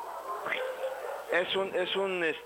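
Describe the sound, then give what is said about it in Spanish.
Small dog barking at cows passing outside a house, giving a few high, yelping barks in quick succession over a voice talking. “Es que de repente pasan vacas aquí afuera de la casa. Y ladra. Y se arma la gran... Bueno, no, las vacas no ladran, ladra tu perrito. Se arman los perros sobre las vacas.”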